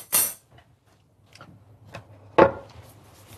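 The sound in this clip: A knife chops spring onions on a fresh cutting board. Two crisp, hard knocks, one at the start and one later, are separated by a few softer ticks and taps with quiet between them.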